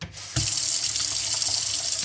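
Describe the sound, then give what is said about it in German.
A watering can fills from a bathroom tap. After a brief quieter moment, a loud, steady rushing hiss of running water starts abruptly and continues without a break. “Da geht man schnell mal ins Bad, macht die Gießkanne voll, fertig.”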